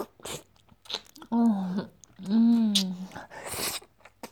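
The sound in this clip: Chewing and biting into food, with a few crisp crunchy bursts between two drawn-out, hummed vocal sounds.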